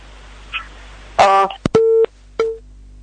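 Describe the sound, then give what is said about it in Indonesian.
Telephone busy tone after a disconnected call: a short harsh burst, then two steady, mid-pitched beeps separated by a brief gap, clear and fairly loud. “ditelepon kembali, terputus sambungan teleponnya”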